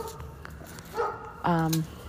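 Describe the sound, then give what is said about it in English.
A neighbouring dog barks, not the household's own pet: a couple of short, tonal barks, the second louder and fuller. “That's not my dog barking, that's another dog.”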